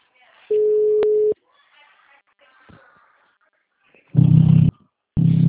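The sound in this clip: Telephone calling tones while a call is placed again: a steady, clear beep of about a second, then after a quiet gap two lower, buzzier tones in succession, loud and without talking.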